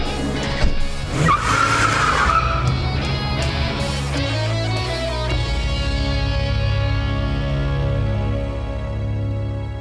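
A van tears along at speed with loud, sustained tire squeals early on, then a steady, throaty engine rumble continues under a fading, ringing screech; no voices.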